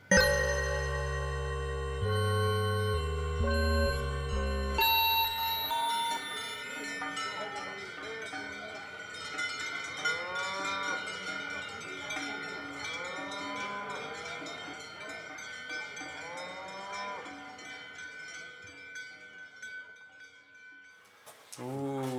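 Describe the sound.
Bells worn by walking cows give a bright, clanking jingle. Dense, loud ringing tones at the start give way to scattered, fainter tinkling and low rustle.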